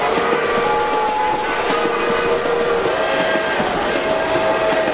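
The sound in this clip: Locomotive train noise: a loud, steady rumbling din that runs throughout, with sustained whistle-like tones ringing above it.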